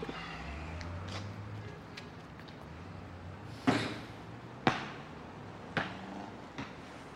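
A missed basketball shot: four hollow thuds ring out at uneven intervals in near silence as the ball bounces away, the first two strongest and the later ones fainter.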